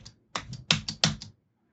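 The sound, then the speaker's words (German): Keys banged on a computer keyboard with flat batteries: a quick run of sharp, hard clacks, about six in an uneven rhythm, with no talk over them. “Haust du gerade auf deiner Tastatur herum? Ja.”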